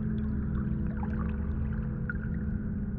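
Water flows in a steady, continuous rush, a dense low-heavy wash with no breaks or swells and no voices.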